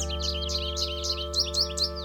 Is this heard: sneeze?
no